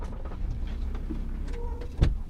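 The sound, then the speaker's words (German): A VW van engine rumbles low and steady as it pulls up in front of a single-family house, with a single sharp knock standing out near the end. “Der pensionierte Pastor hält vor einem Einfamilienhaus, steigt aus dem Bulli, geht zur Haustür und klingelt.”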